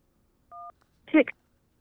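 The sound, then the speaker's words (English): Single telephone keypad tone for pressing 1 to accept a call, a short steady two-note beep, followed a moment later by a brief voice. “To accept, press 1. To send a voicemail, press 2.”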